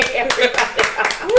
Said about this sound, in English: Clap up for this